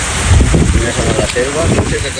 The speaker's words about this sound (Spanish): sonido que también recogemos en Almería. Si sonaba el granizo del tamaño de una pelota de golf que ha caído este lunes en Cela